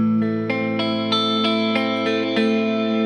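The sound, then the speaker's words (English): An electric guitar plays through Meris Mercury 7 and Old Blood Noise Endeavors Dark Star pedals, set very wet. A series of soft plucked notes rings over a lush, sustained, shimmering wash that never dies away. “Is that a Meris Mercury 7? It is. And and Old Blood Noise Endeavor's Dark Star combined.”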